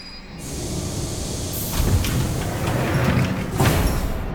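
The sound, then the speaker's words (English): A yellow underground train pulls up at a station with a sustained, loud rumbling roar, broken by brief hissing surges near the start and again near the end. “The yellow underground train pulls up at a station and the doors open.”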